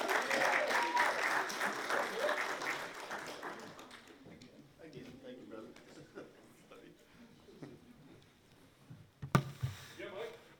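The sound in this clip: An audience applauds to welcome a pastor coming up during a church service. The clapping is strong at first and thins out over about four seconds into quieter room noise. A single sharp knock follows near the end.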